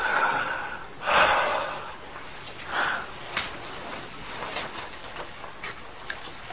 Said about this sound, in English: Breathe in deeply. Now breathe out. Again.